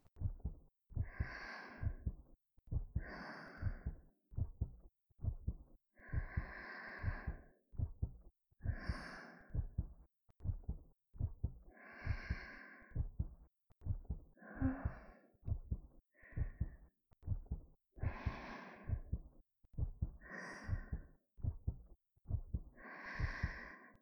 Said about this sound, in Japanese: ほら、もう一度私の呼吸に合わせて。